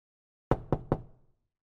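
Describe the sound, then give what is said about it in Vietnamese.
Three sharp knocks on a door in the middle of the night, evenly spaced and fairly loud, each with a short dull decay and no voices around them. “Tiếng gõ cửa vang lên đều đều, khiến cho mình giật mình tỉnh giấc.”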